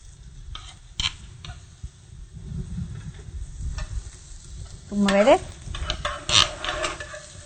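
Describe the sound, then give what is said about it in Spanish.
Chopped onion sizzles as it hits hot oil in a pan, a steady crackling hiss with stirring and occasional utensil clinks and scrapes, rising louder briefly partway through. “Vamos a poner en nuestro sartén, que está caliente, ten cuidado, no te vaya a quemar. Se pone el aceite y se vierte la cebolla previamente picada.”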